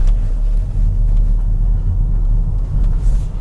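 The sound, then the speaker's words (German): Low, steady engine rumble from a Renault Espace hybrid SUV as its combustion engine runs alongside electric drive, a constant even drone with no talking. “Und wenn dann der Verbrenner dazukommt, ist der echt unauffällig. Also ja, man hört ihn schon.”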